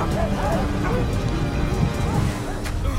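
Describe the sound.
Dogs bark and whimper as they are driven forward during a fire at a wigwam. Repeated yelping barks and high, wavering whines sound over a constant loud rushing background.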